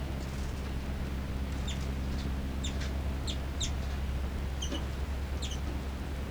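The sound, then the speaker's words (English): Two birds chittering and calling back and forth, heard as many faint, high, short chirps, often paired, scattered over a steady low hum. “Chitter by both birds. Calls by 3-3, then 5-9 response.”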